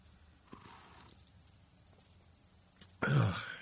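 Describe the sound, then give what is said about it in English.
A cough straight into a live microphone bursts out loudly near the end, a single harsh blast after a few seconds of faint, quiet background with small soft bumps. “Excuse me again. Yeah, normally I mute that microphone before I go live here, and I didn't this morning, so I was coughing right into it.”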